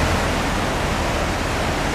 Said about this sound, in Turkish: Karların erimesi ve son günlerdeki yağışlarla birlikte Habur Çayı'nın debisi yükseldi.